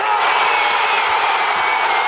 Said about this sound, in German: Jubel im legendären Aztekenstadion von Mexiko-Stadt. Beim Auftaktspiel Mexiko gegen Südafrika sind fast alle der etwa 83.000 Plätze besetzt.